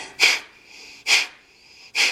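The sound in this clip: Three forceful exhalations push out through the left nostril in a yoga breathing exercise. Each is a sharp, hissy burst at a regular pace, about one per second, separated by quiet.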